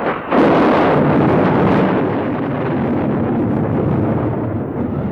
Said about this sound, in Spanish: El estallido de la tormenta.